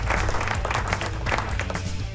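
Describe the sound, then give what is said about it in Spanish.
Steady, dense applause from an audience, a continuous crackling wash of many hands clapping at an even level with no pauses. “¡Aplauso, please! Ahí está el aplauso.”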